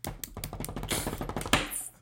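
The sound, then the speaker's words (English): A rapid drum roll of dense, fast taps runs steadily for about two seconds, building to a sharper hit near the end, played to announce an online quiz result. “I click submit. Give me a drum roll, please.”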